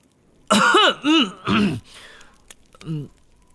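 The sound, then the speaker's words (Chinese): A person clears their throat loudly in three harsh, rasping bursts in quick succession. After a quiet breathy pause comes a fourth, shorter and softer rasp. “哈利给了他30秒回忆时间，然后大声清了清嗓子。”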